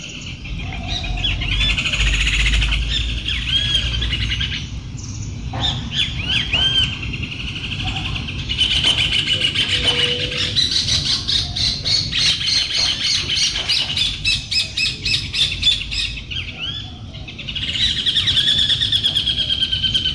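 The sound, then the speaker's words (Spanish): Birds call and sing in the morning after a storm, a loud, dense chorus of squawks, chirps and trills in overlapping bursts, with brief lulls, over a low rumbling background. “Continuamos con las voces de la mañana, los pájaros y su alegría después de la tormenta.”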